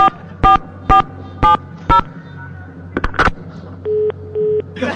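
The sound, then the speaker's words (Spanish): Telephone keypad tones dial out to call a listener: four evenly spaced beeps, then a quicker cluster of tones, followed by two longer, lower ringing tones. “vamos a marcar en este momento para regalarle un pastel. Hacemos la llamadita.”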